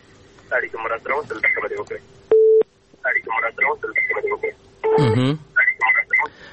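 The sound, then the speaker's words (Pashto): A short, steady telephone tone sounds when a call-in connection drops. It cuts in between stretches of narrowband phone-line talk, and a brief distorted burst follows later. “نو د دغه تلیفون څه مشکل درلوده، فکر کوم ستونزه وه، اړیکه شلیږي.”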